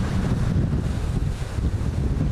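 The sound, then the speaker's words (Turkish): A storm wind blows along a seafront, a steady, loud, low rushing roar with gusty buffeting against the microphone and no voices. “Etkili sağanak yağışa fırtına da eklenince deniz taştı.”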